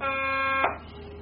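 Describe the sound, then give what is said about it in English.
A buzzer sounds one harsh, steady tone for just over half a second, then cuts off abruptly, leaving quiet. “Maybe one day I'll communicate all the time by buzzer.”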